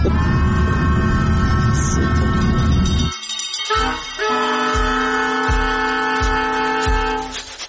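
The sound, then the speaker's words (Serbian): A passenger train arriving at Mostar: loud sustained tonal screeching and humming over a rumble, a brief dip in level midway, then steady tones with a few rhythmic low thumps of wheels. “Stigla sam, izlazim iz voza u Mostaru”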